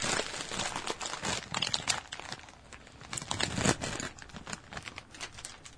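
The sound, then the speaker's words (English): Crinkling plastic of a bag of bacon-wrapped jalapeno popper snacks being opened, a steady crackly rustle with bursts of sharper crinkles throughout, with no voices. “I have bags of these at home, so you can go ahead and open it and smell it first”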